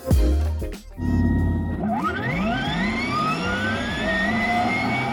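A segment theme jingle for a feature on future cars opens with a siren-like wail. A low rumble and burst come first, then rising, sweeping tones climb and hold loudly for several seconds.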